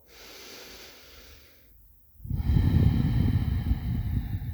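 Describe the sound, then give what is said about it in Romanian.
Deep breathing in and out: a soft, airy breath is drawn in, and after a brief pause a much louder, rushing breath is pushed out and held steadily to the end. “Inspiră și expiră de 3 ori mai adânc decât de obicei.”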